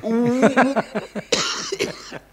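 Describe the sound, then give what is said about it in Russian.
A man coughing in a harsh, rough fit of several quick bursts, with a short pause before a final cough. “Вот, закашлялся.”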